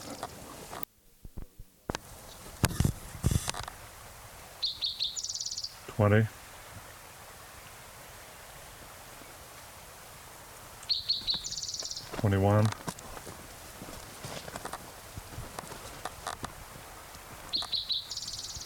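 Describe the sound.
A male bird sings clang trills in three bouts, each a burst of high buzzy notes followed by a lower rattling trill, separated by quiet gaps.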